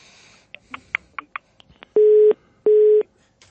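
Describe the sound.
Telephone busy signal after a dropped call: a few soft clicks, then two loud, steady mid-pitched beeps of equal length separated by a short gap.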